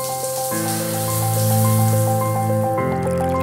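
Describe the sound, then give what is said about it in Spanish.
Shower water running, a steady bright hiss that continues throughout beneath sustained, resonant musical tones. “Te levantas. Una ducha.”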